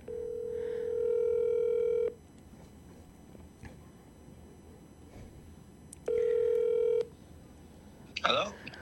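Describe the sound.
Telephone ringing tones on a radio call-in line as a caller is connected: two long, steady, buzzy tones separated by a quiet gap, followed by a brief higher chirping burst at the end.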